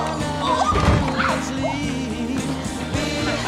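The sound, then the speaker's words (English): A chair tips over and a person falls back onto the floor, giving one loud crash near the start over continuous background music. “She finds the one she wants, then the chair tips over and she falls back onto the floor.”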